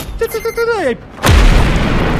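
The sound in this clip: Explosion of a magnetic mine as a sound effect in a cyberpunk tabletop role-playing game: a voice with a falling pitch gives way to one deep, loud boom that rolls into sustained, rumbling noise.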